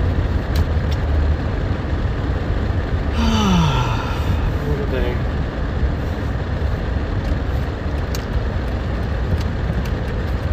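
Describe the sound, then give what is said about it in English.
Interior road noise from a moving car forms a continuous, dense rumble and hiss that holds fairly even throughout, with a brief faint tonal sweep partway through. “I'm driving at the moment.”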